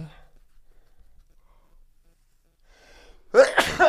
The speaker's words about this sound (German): warte, niesen.